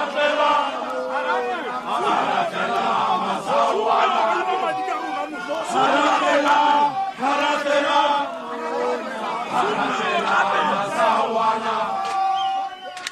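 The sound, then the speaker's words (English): Supporters of Supra Mahumapelo chant and shout outside a PEC meeting, with many voices in loud, rhythmic, continuous chanting and cries rising and falling in waves throughout. “Well, that was the mood earlier on outside that PEC meeting, and you can hear the sentiments expressed by the supporters of Supra Mahumapelo, who tried to push their way into that venue where the PEC meeting is taking place.”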